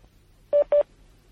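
Two short telephone keypad tones sound in quick succession as a call is transferred to another line, each a clear steady beep of equal length with a brief gap between them against quiet background.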